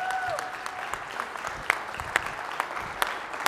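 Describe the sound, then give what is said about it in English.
Audience applause welcoming a guest speaker, Dr. Dirt from Convoy of Hope, at a pastor-led gathering. A steady wash of many hands clapping, with a few sharper, louder claps standing out. “So, guys, would you jump to your feet really quick? Put your hands together.”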